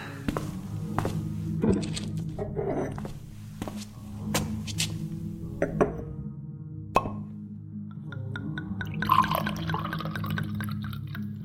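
Wine is poured into goblets, with a series of dull knocks and drips from the vessels, followed near the end by a brighter, splashing pour.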